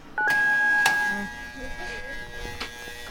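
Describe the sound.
A telephone being dialed gives a steady two-pitch electronic tone lasting about a second, followed by faint low background noise.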